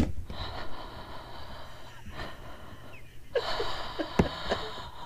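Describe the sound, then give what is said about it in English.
Someone breathes directly into a microphone, making soft airy breaths and gasps with a few louder inhales and exhales over a quiet background. No one talks. “I'm just going to breathe into the mic.”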